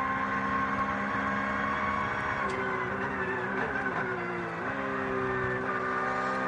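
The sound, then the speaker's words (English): Onboard engine noise from the number 5 Porsche race car, a Black Falcon entry, while it battles a Cup 2 car. The engine is a loud, sustained droning whine that dips in pitch around the middle and then climbs again. “So a bit of on board with Giorgio Piani here in the number 5 Porsche.”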